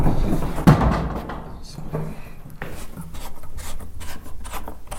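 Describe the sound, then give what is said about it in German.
A coffin lid in a coffin showroom is unscrewed at its tulip-head screw, then opened and closed. Rubbing and scraping handling noises, one sharp knock early on, then scattered softer creaks and knocks throughout. “Ich muss ihn jetzt einmal aufschrauben und dann öffnen und schließen.”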